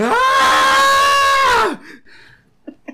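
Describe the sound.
A person screams loudly, a high, sustained, strongly voiced cry that lasts about a second and a half and cuts off abruptly. Faint short sounds follow.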